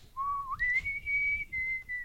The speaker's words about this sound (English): Oh, that's the penny whistle. He does a mean penny whistle, guys.